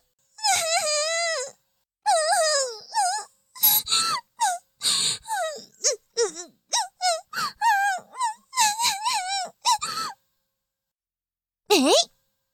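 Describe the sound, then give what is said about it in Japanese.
Fake crying wails from a voice, a string of high, wavering sobbing bursts with rising and falling pitch, repeated in quick succession for about ten seconds, then a short pause before one last loud wail. “嘘泣きはずるい？”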